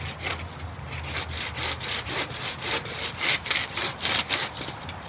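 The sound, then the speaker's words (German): Handsaw strokes as a cemetery worker cuts branches off a yew tree, with rasping back-and-forth sawing through wood in a steady, fairly loud rhythm that never stops. “Ein Friedhofsmitarbeiter sägt die Äste einer Eibe ab.”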